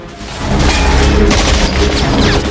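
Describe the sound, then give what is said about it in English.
A hitman fires at a team on a rooftop, producing loud, sustained gunfire as a dense, continuous burst for about two seconds. “The hitman fires at the team.”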